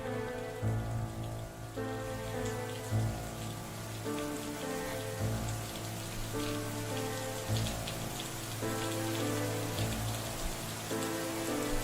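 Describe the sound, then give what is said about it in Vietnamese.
Steady rain falls outside, a continuous soft, even hiss with no breaks, while sustained musical tones play quietly throughout. “Ở bên ngoài trời giả rích một màn mưa ẩm ướt.”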